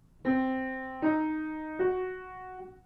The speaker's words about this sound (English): It's constructed by placing 2 minor thirds on top of each other. Listen to it again, arpeggiated.